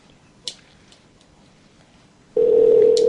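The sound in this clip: Telephone line tone as a call is placed: near silence with a faint click at first, then a steady, low, continuous tone starts abruptly and holds loudly to the end.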